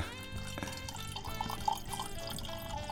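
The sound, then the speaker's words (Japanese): Red wine is poured into a glass, giving a faint, continuous trickling splash that stays quiet throughout, with a soft tonal background underneath. “自分でもうグラスに乾杯しちゃいました。早速ワイン注ぎたいと思います。”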